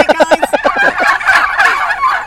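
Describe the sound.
Turkeys gobble on a turkey farm. A rapid, stuttering run of short pulses gives way to loud, overlapping warbling calls from several birds, with no talking.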